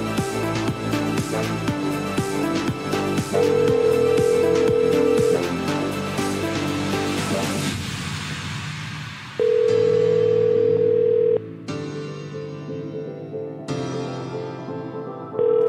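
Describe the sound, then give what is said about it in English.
Telephone tones during an unanswered call, a few steady electronic tones of about two seconds each sounding over background music. “Unable to answer your phone right now. If you would leave your name. Bogo. Answer the damn phone, sir.”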